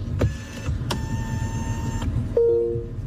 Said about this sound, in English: So my seat kind of lowered itself. Right. It went back a little bit. The steering column went down and came a little bit closer.